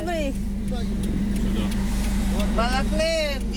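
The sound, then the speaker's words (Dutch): Steady engine rumble and road noise from a bright green Volkswagen van driving toward a war front through shelled villages: a continuous, even drone, with voices briefly heard over it. “In een knalgroen Volkswagenbusje zitten twee mannen en drie vrouwen. Ze zijn op weg naar het front.”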